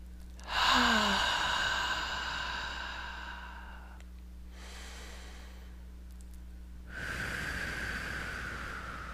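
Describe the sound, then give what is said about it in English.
Slow, deep breaths drawn in through the nose and let out through the mouth, a few long airy hisses that swell and fade one after another, steady and fairly quiet over a low background hum. “Let's start with a couple nice deep breaths in through the nose and out through the mouth.”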